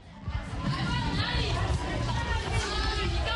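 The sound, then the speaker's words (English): Many children's voices chatter and shout as students play unsupervised outside their classrooms at a government primary school in Harare, forming a dense, continuous babble that stays loud throughout. “This is the sound of students at a government primary school in Harare playing outside their classrooms without supervision.”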